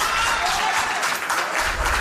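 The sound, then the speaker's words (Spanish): Dense, sustained applause from the audience at a town council session, a continuous wash of many hands clapping at an even, loud level from start to finish. “lo que ha provocado aplausos entre el público asistente, que fue expulsado en ese momento de la sala por orden del alcalde”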